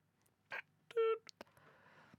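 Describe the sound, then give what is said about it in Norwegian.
A hospital beep: a single short, steady, mid-pitched electronic tone among a few brief clicks and soft noise. “Er det piping fra sykehuset?”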